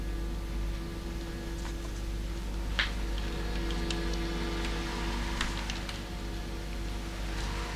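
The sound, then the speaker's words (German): Rain falls in a steady, faint hiss, with a few scattered drips ticking through it and a low hum underneath; no voices. “Der Regen kann nicht schaden.”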